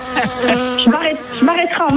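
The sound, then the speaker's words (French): A small fly buzzes into earshot, a close, fairly loud drone whose pitch wavers and bends up and down in short swoops over about two seconds. “Allez, la petite mouche qui arrive.”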